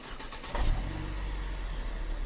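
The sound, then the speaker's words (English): Engine of a yellow short school bus idling outside a skate park: a steady, low, broad rumble that swells early on and then holds at an even level, with no voices. “Outside the skate park is a yellow short bus. Just sitting there idling, not far from where you exit.”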